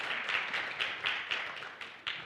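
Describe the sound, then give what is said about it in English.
Audience applause welcoming a couple onto a stage: dense, steady clapping with a few louder surges running throughout. “I'd love for you guys to welcome up Domingo and Tiana Salas as they get ready to go somewhere, and we'll let them tell you about it. So give them a hand. Come on up, fam.”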